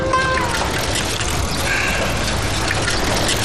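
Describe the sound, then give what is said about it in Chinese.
Running tap water while hands are washed: a steady, even rush of water that continues unbroken from start to finish. “哥，我现在洗手。”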